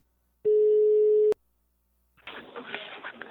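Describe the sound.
A telephone tone sounds while a call is being placed, a steady single-pitched tone held for about a second that ends in a click, followed after a pause by a stretch of rough noise.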